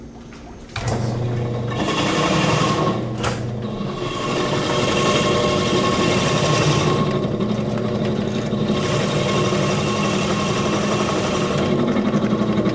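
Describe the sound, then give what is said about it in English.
Steady grinding whir of a motorized ice shaver, its spinning blades cutting a block of ice pushed through by a ratchet while a foot pedal holds it in place. The motor starts after a brief quieter moment and runs loud and continuous to the end. “there's a ratchet that pushes the ice through a motorized spinning blades, and then there's a foot pedal that holds the ice in place, so it doesn't bounce around in there.”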